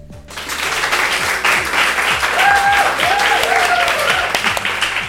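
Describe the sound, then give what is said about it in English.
Applause from a large live crowd gathered for a recording, a dense, steady clapping that holds at an even, fairly loud level for about five seconds without a break. “it's obviously a bit weird to ask for an applause at the beginning, but yeah, we staged this”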